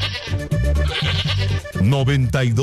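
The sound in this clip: A goat bleats a few times in a row, loud, nasal and wavering calls with a trembling pitch.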